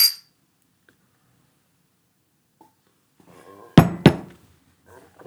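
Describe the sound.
Glasses clink together in a toast: two sharp, bright chimes close together, with faint voices around them after a quiet stretch.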